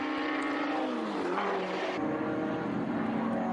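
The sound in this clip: Racing car engines of a Lotus 11 and a Porsche roar past in a continuous loud drone. Steady harmonic engine tones carry through, with a brief shift in pitch midway.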